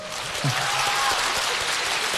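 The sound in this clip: Audience applause, a dense, steady wash of many hands clapping that holds evenly throughout, with a brief voice faintly audible early on.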